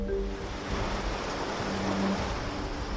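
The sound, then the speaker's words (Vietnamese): Waves lap on the shore beside simple fishing villages, a soft, steady rushing wash that holds an even level throughout with no distinct breaks between swells. “Dọc theo những làng chài đơn sơ, quanh năm nghe tiếng sóng vỗ rì rào”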